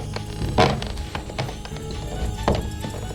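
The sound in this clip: Someone rummages through a kitchen cupboard and sugar bowl, producing a few dull thumps and light knocks over a steady background rumble.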